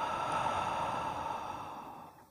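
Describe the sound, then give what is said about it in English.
A deep, slow breath in through the nose and out through the mouth: one long, airy, soft hiss lasting about two seconds that tapers off at the end, with no talk. “take a deep breath in through the nose and out through the mouth.”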